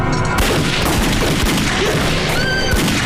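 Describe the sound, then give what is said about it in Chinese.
Gunfire during a clash between soldiers: a dense, loud barrage of cracks and booms over continuous rough noise, with many shots blurring together and no pause. “为什么开枪？”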